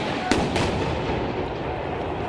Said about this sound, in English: There have been several rounds of tear gas fired now.